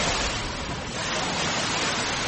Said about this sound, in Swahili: Hivi sasa nimesimama katika ufuo wa Bahari Hindi. Hili ni eneo la mji wa kale, kwa Kiingereza Old Town, katika kaunti ya Mombasa.